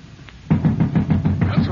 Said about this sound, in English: The king's watch. They're at the door.